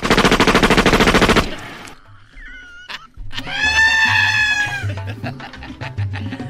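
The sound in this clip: Gunfire follows a commander's order to aim and fire: a loud, dense, rapid rattle of shots lasting about a second and a half, then quieter, scattered sounds afterward.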